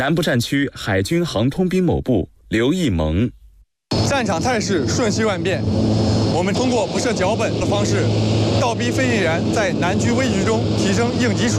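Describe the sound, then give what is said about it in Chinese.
Several naval aviation warplanes take off one after another from an airfield in the South China Sea region. A loud, sustained jet roar starts abruptly after a brief gap and continues under steady talk, which is also heard before it begins. “南海某机场随着塔台指令下达，南部战区海军航空兵某部多架战机依次升空”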